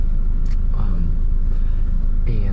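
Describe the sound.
A car driving on a road, heard as a steady low engine and road rumble that fills the whole stretch, with a few faint, brief higher sounds over it.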